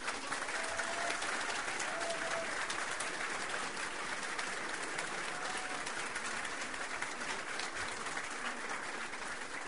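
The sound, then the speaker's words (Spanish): Applause from an audience at an official ceremony appointing government officials to a labour and social security ministry: a soft, continuous patter of many hands clapping at an even level throughout. “Fuerte el aplauso.”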